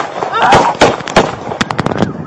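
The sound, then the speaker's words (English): Several sharp gunshots from a Cook County Sheriff's officer shooting a man, bursting out in an uneven cluster with shouting voices around them. “New video today of a Cook County Sheriff's officer shooting a man.”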